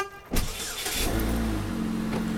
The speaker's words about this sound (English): driving with her husband to Gilroy